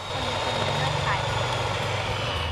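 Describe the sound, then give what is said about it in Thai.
Eggs being beaten until frothy and fluffy white make a continuous, even buzzing noise that runs throughout while people talk. “นี่ไงเห็นไหมเห็นไหมมันจะมีฟองๆขึ้นแล้ว ตีให้ขึ้นฟูขาวเลยลูกตีลงไปที่ไข่เลยลูก”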